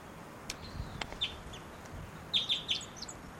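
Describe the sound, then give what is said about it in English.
Thin, high flight calls of a female wild bird: one short call, then a quick run of three or four chirps near the end. All are faint over a hissy background, with a couple of sharp clicks earlier. “It might be the male in the back, but those flight calls were the female.”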